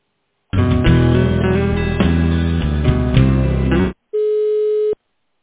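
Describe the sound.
Telephone audio while a call is transferred: a few seconds of loud hold music stops, and after a brief gap a single steady, mid-pitched beep tone sounds for under a second.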